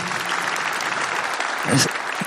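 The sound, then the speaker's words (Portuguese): An audience applauds to welcome a visiting group at a gathering led by a priest. The clapping is dense and steady throughout, with a voice briefly heard over it. “Vamos aplaudir.”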